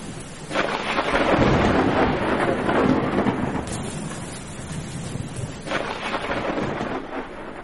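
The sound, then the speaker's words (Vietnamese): A thunderstorm with heavy, steady rain hissing continuously, loud and dense throughout, with deep thunder rolling beneath it and swelling in a couple of places, and no voices. “Cho đến khi bóng dáng của thằng Tèo biến mất, thì trong cơn mưa có một thứ gì đó mờ ảo như là bóng người hiện ra dưới bầu trời sấm chớp”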